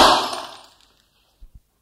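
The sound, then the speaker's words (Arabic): A glass cup shatters in an old radio comedy program, a bright crashing burst that fades out within a second, followed by two soft, low knocks. “كوب تحطم، صوت عادي جدا.”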